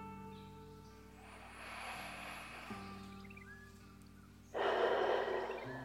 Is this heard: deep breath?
yes

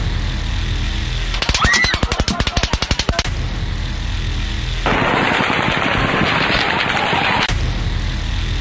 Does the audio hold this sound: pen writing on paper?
no

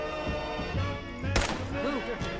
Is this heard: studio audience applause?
no

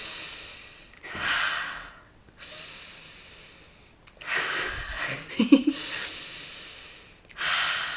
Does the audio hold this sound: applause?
no

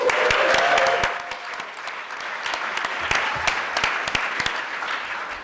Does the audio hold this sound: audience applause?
yes

